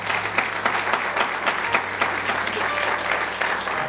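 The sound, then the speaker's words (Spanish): A church audience applauding during a sermon service: dense, steady clapping from many hands, loud and continuous throughout, with sharper individual claps standing out and a low hum underneath. “Dele fuerte ese aplauso al Señor.”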